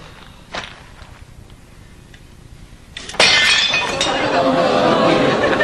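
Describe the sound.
A ceramic oatmeal crock, a family heirloom passed down for generations, smashes on the floor in one sudden loud crash. It follows a quieter stretch with a faint clink, and voices are present.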